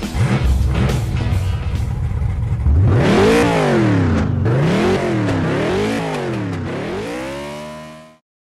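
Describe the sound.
A race car engine revs loudly at the start of a race. A low, rough idle rumble gives way to several rising and falling rev sweeps, steady in loudness, before the sound cuts off abruptly.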